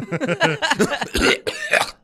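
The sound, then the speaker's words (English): A smoker's coughing fit: many rapid, raspy, voiced hacks run together in an unbroken, harsh burst for about two seconds, loud and rough. “You're gonna cough up a lung.”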